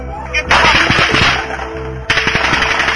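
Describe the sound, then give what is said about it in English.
Automatic gunfire in a police shootout, caught on an officer's body camera: many loud, rapid cracks come in dense bursts, with a sharp fresh volley breaking out after a brief easing. “Officer Brady Cook is shot. The moment captured on another officer's body camera.”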